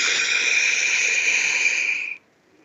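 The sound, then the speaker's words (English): A single deep breath drawn in through the nose, a steady airy hiss lasting about two seconds that cuts off abruptly, with no talk. “take a moment and take a deep breath in through your nose,”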